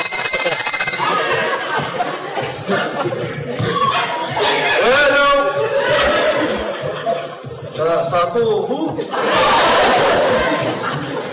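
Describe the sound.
A cellphone rings with a bright electronic ringtone for about a second at the start. Then people talk and laugh loudly, and the laughter keeps going through the rest.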